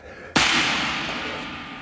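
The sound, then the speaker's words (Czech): A single gunshot: one sharp, loud crack that hits suddenly and leaves a long, slowly fading noisy tail. “Ty výstřely. To bylo po vás? Vypadá to tak.”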